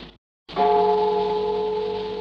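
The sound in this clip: A temple bell rings once in a Vietnamese cải lương opera drama. A brief sound and a short silence come first, then the strike blooms into steady, sustained overtones that ring on and fade only slightly to the end.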